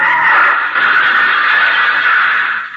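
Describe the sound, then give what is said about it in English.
Car tires screech as a car driven slightly over the speed limit suddenly turns a corner sharply, a loud continuous high squeal lasting almost three seconds before trailing off. “Charlie seems to be driving satisfactorily, slightly over the speed limit, but everything seems to be all right until he suddenly turns a corner sharply.”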